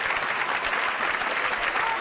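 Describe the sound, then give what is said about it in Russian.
Applause for Bolshoi ballet dancers at Lincoln Center in New York: dense, steady clapping from a large audience that stays even and loud throughout. “Лункина и Филин сорвали бурные аплодисменты в Линкольн-центре.”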